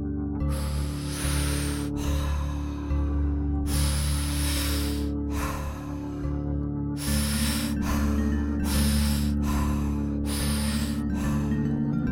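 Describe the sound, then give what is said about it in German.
Deep breathwork into belly and chest: many repeated, loud, hissing in-and-out breaths over a sustained musical drone, with the later breaths coming shorter and quicker. “Wir machen heute 3 Runden Atemarbeit, Bauch, Brust, aus in 2 verschiedenen Geschwindigkeiten. Das hört sich ungefähr so an.”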